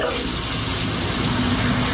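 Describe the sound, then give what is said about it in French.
Shower running, a steady soft hiss of spraying water that stays even and unbroken for the whole moment, with no talk. “je suis sous la douche, donc je peux pas répondre”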